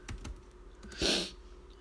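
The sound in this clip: Fingers type a search into a web browser on a computer keyboard: a few soft, quick clicks, then a brief louder burst of keystrokes, with no talking.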